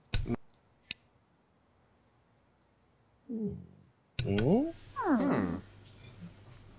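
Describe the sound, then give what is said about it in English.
A cat meows right next to someone: a few loud, rising-and-falling meows arrive in quick succession after a couple of sharp clicks and a stretch of quiet. “The cat that's meowing right next to me.”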